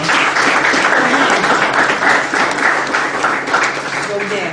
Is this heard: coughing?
no